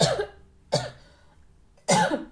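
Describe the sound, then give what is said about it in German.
Coughing and throat clearing from a person with a frog in the throat: three harsh, loud bursts, each followed by a fading rasp, with no talk. “Entschuldigung, ich habe einen Frosch im Hals.”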